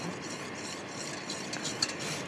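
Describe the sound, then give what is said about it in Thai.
Stirring pieces in water as they cook and melt into a gel, giving a steady, continuous swishing and scraping texture at moderate level, with one brief click near the end. “เอามาใส่กับน้ำนะ ค่ะ คนไปสักครู่หนึ่งเขาก็ละลายเนาะเขาก็ละลายเองเขาก็พอเขาสุกเขาก็ละลายเป็นเนื้อเจลเองนะคะ”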